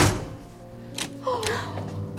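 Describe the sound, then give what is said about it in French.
A door being pushed shut inside a house gives two dull, brief thuds about half a second apart. Both knocks are fairly soft. “laissez-moi fermer la porte.”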